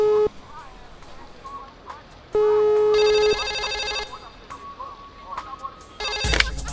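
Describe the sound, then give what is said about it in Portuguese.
A phone call's ringtone plays as someone dials a place in Anápolis: electronic tones sound in a few steady bursts, one brighter and buzzier, followed by a loud abrupt noise at the very end. “eu tô ligando lá no Ouro Branco, lá em Anápolis”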